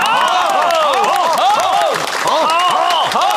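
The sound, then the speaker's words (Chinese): Applause and cheering from an assembled crowd welcoming an anti-communist militia commander, with steady clapping mixed with many overlapping raised voices throughout. “大家鼓掌”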